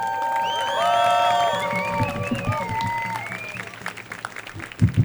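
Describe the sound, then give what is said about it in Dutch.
Applause and cheering from a crowd at a pro-Palestine rally on a city square: steady clapping mixed with high whistles and whoops, then a few sharper shouts near the end. “Mag ik een groot applaus voor Lev?”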